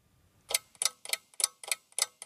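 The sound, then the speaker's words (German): A tower-like mechanical wooden clock on an art trail ticks seven times after a brief quiet start. The crisp, evenly spaced clicks keep a steady rhythm at a fairly low volume. “Ich stehe vor einer turmartigen mechanischen Holzuhr.”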